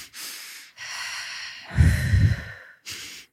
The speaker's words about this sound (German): wenn wir so sehr aufgeregt sind, dass wir so zweimal schnell einatmen, dieses.